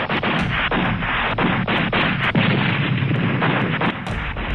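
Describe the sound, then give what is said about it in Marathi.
Indiscriminate gunfire from terrorists, with many rapid, sharp shots cracking over a continuous loud roar of firing that keeps up without pause and with no talk. “असणाऱ्या दहशतवाद्यांनी अंदाधुंद firing सुरू केलं.”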